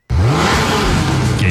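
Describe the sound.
A car engine revs hard, a loud continuous roar with a deep rumbling low end that climbs briefly and then holds steady for about a second and a half, with no voices.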